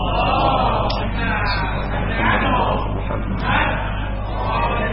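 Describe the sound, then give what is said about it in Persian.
An audience recites salawat in unison, many voices chanting together loudly in sustained phrases that swell and ease a few times, with a steady low hum underneath. “آیه ایره که میخونم یه خورده تأمل کنید تا انشاءالله نکاتی رو بحث برسونم. صلوات و رحمت بفرمایید.”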